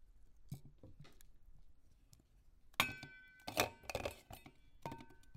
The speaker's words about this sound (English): Everything's going into the bowl right now.